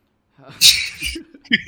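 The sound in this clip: A single sneeze: a sudden loud, hissing burst, followed by a few short voiced sounds.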